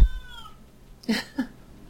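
An agitated pet cat meows: a drawn-out tonal cry that fades at the start, then after a short gap two brief, louder bursts of yowling. No one speaks.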